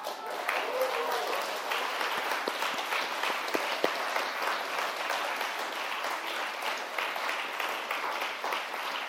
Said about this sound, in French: Une annonce réjouissante pour laquelle on va pouvoir applaudir.